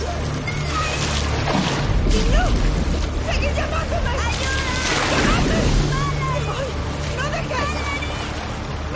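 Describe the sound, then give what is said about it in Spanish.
An overturned boat drifts upside down along a raging river, with loud, continuous turbulent rushing and splashing water throughout, swelling and easing in a few surges. “El bote se desplaza boca abajo por el virulento río.”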